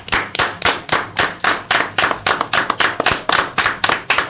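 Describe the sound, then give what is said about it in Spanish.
People clap their hands in applause as a tribute, many sharp claps in a steady, even rhythm, loud and alone with no talk throughout. “Aquí se ha notado que aplaudíamos, pero de verdad.”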